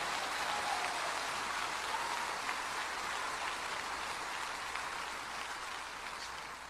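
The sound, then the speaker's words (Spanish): A church audience applauding, a dense, even hiss of many hands clapping that holds steady and fairly faint from start to finish. “Dele un aplauso de gloria al Señor.”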